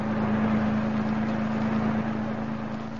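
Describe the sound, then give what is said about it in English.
A car driving on a road on a trip upstate, giving a steady low engine drone with a constant humming tone that eases slightly toward the end. “I can't understand why you insisted on our driving upstate today, Vera.”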